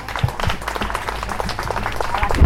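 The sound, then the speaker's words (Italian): Applause from an audience at a morning public celebration, greeting the president of a land reclamation consortium: dense, steady clapping that holds at an even level for the whole stretch, with scattered louder claps and a brief bump near the end. “Quindi facciamogli un bel applauso”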